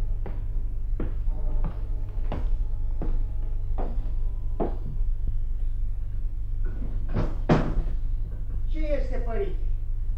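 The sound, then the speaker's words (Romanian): Someone knocks on a door: a steady series of evenly spaced, hollow raps over a low hum, followed by a short pause and then a voice speaking. “Tată, bate cineva. Cine-i?”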